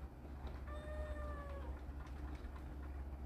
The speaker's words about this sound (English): Also, my cat is going crazy.